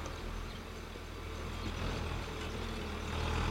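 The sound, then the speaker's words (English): A vehicle driving up and arriving at a farm, heard as a faint, steady low engine rumble that grows slightly louder toward the end, with no talk. “who's that driving up?”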